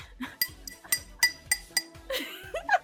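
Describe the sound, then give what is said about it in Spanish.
Small shot glasses clink together in a steady series of bright, sharp taps, each one brief and ringing, with no talk. “sonó así, porque era un vaso de shot”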